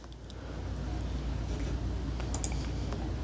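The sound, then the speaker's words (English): A few faint computer mouse clicks, sharp and sparse, over a steady low background hum, with no voices. “So I'll click on these.”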